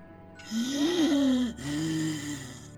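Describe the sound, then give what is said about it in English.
Wheezing comes from behind a bedroom door: two long, loud, labored breaths with a whistling, wavering tone over a steady low background noise. “Wheezing comes from the other side of the door.”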